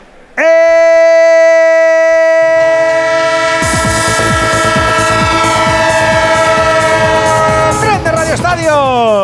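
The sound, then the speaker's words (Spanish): A train horn sounds as a sound effect, a loud, sustained multi-tone chord. After a few seconds a rhythmic clatter of wheels on rails joins it and keeps going beneath the horn. “El tren de Onda Cero, claro que sí, es que todavía nos queda camino, es que no hemos llegado a la estación final.”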